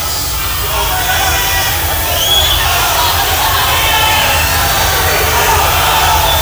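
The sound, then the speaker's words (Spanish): A hushed concert crowd of more than 20,000 at a rock show at Club Ciudad de Buenos Aires keeps up a dense, steady murmur, with a few scattered shouts rising above it throughout. “Tan solo algunos gritos en más de 20.000 personas casi en silencio.”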